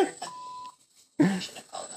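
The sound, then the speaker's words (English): A censor bleep, a steady mid-pitched tone lasting about half a second, covers a word in speech. A brief silence and more talk follow. “Oh, what'd she call him? What's the beep?”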